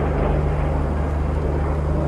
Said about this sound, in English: Is that a fighter jet? It flew overhead.